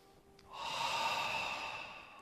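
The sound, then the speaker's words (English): A long, deep in-breath taken standing during a guided breathing exercise, a steady, airy rush that swells and then holds, heard alone without talk. “Okay, on your feet. Breathe in.”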